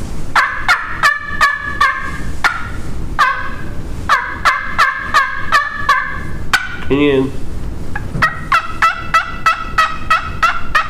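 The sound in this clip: A turkey call imitates a young male turkey's gobble: loud, rapid, rattling bursts in several runs, broken midway by a short warbling note.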